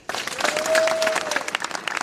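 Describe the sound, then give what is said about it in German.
Clapping and cheering from around 250 people at a protest rally outside the town hall in Wutach, Germany, bursting in abruptly after a quiet moment and continuing as a dense, steady crowd applause. “Vor dem Rathaus in Wutach wird geklatscht und gejubelt. Rund 250 Menschen sind zur Kundgebung gekommen.”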